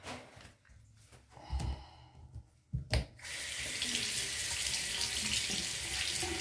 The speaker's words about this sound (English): I'm gonna have to rinse this out.